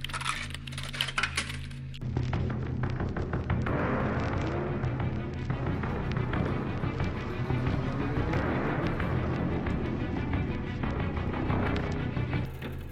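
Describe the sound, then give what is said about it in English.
A blaster beam plays in a horror film score, giving a dense, metallic, clanging drone. A brief, thinner opening leads into a loud, continuous shimmering roar that holds steady to the end. “He's doing it with the blaster beam.”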